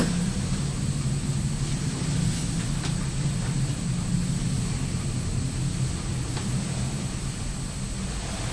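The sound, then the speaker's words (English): A steady, broad roar of an airplane flying overhead, a continuous engine rumble at an even level throughout with no talk. “Can you hear that big noise? Yeah. It's a plane. It's a plane, that's right.”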